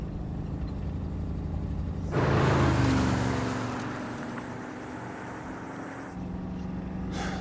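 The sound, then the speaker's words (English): A van speeds past on a road near a roadside barbecue sign. A low engine rumble surges into a loud rushing roar after about two seconds, then fades away over several seconds. “The van speeds past a sign that reads, Great Barbecue.”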